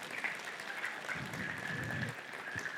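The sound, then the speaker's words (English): Applause welcomes a speaker as she joins a morning gathering: steady, moderate clapping that continues throughout without a break. “We'll give her a hand as she joins me this morning.”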